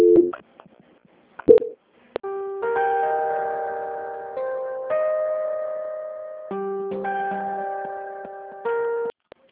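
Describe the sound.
Telephone line tones play during a call transfer. A few sharp clicks come first, then sustained electronic tones that step between pitches in long held segments, with no voices.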